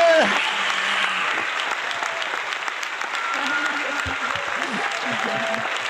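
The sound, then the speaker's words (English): Audience applause welcomes two guests onto a stage, a dense, steady clatter of clapping throughout, with a voice briefly heard over it. “Ladies and gentlemen, please put your hands together and help me welcome Dr. Jeffrey Overall and Rhiannon Rosland.”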